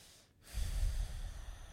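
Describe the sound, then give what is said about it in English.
A deep, forceful exhalation during a guided breathing exercise: after a brief quiet moment, one long breath out swells into a strong, breathy rush with a heavy low rumble that sustains to the end. “Start to breathe more deeply and breathe out really deeply and strongly.”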